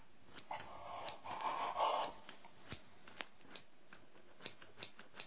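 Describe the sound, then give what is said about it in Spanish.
Scissors cutting the cloth that covers a burn: faint rustling of fabric, then a few short, sharp snipping clicks spread out over the remaining seconds. “¿qué vas a hacer con esas tijeras? Cortar la tela que cubre la quemadura.”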